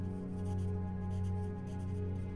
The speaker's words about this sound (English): Before I could finish writing the letter